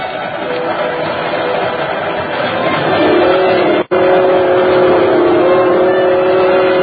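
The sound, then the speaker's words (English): A local passenger train runs late at night, its continuous low rumbling roar steady throughout, with a slight shift in tone partway through and a momentary dropout. “Somehow, that sound is the most lonesome sound in the world. But maybe that's because I feel so alone on a train late at night.”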